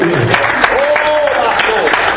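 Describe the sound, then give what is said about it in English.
A church audience claps hands in praise during an evening service, a brisk, uneven patter of many hands running under a preacher's voice that talks over it throughout. “Let's give Him a good hand clap of praise tonight, church.”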